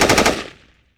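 A short burst of automatic gunfire: a few rapid, loud, sharp shots in quick succession that die away within about a second.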